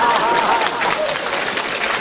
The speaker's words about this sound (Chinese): 说对了， 说对了，鼓掌。